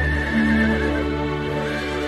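A wild horse neighs in one loud, sustained whinny with a clear, ringing tone that lasts about two seconds, heard alone without voices.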